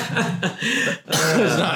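Coughing and throat clearing after inhaling a bit of purple yam: a few rough, voiced, sputtering bursts in quick succession with a brief gap between them.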